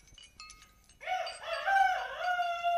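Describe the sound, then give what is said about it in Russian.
A rooster crows once, a loud wavering cock-a-doodle-doo that begins after a second of faint background noise and holds to the end. “Не волнуйтесь, капитаны, это кричит мой морской петух.”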